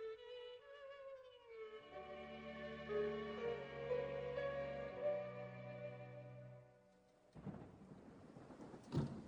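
Rain and thunder on a rainy evening break in after a sustained musical passage fades. A broad rain hiss with low rumbling swells up over the final two seconds.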